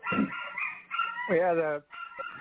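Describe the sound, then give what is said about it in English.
An excited dog cries out in a few harmonic yelps and a wavering, whining howl, with short pauses between the outbursts. “I hope y'all can't hear that. My dog's going crazy.”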